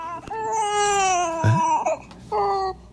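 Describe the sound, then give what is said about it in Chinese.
An infant abandoned at a doorstep cries in high, strained wails, with one long sustained cry followed by shorter sobbing bursts. “这怎么放门口了？哎， 不哭不哭，不哭不哭，呦， 这谁家孩子呀？ 不哭不哭，”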